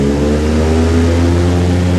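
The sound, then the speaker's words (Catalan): Steady, loud droning engine of a small propeller plane that has had an oil leak, flying over Alaska: a constant, even hum with strong low harmonics and no break or change in pitch. “En Fèlix volarà amb l'avioneta que no li tocava perquè no es refia de l'aparell que ha tingut la pèrdua d'oli.”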